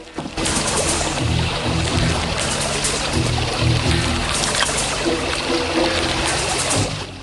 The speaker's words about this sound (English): He stealthily wades across the river, emerging in the reeds on the far side.